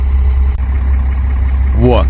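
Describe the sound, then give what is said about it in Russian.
Strong wind blowing on Mount Elbrus makes a steady, loud, low roar throughout, and a voice is heard briefly near the end. “Я вам сейчас видео как раз покажу, как это все выглядело. Погодка там какая. Видали, вот с какой интенсивностью ветер дует?”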